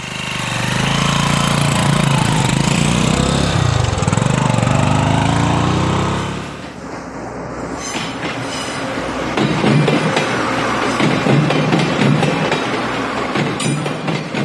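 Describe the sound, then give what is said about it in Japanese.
A Taiwan Railway conventional-line train runs with a loud, deep, continuous rumble for the first six seconds, then shifts to a brighter, busier rattling clatter that carries on to the end. “まずは台湾の在来線、台湾鉄道に乗り込んでみましょう。”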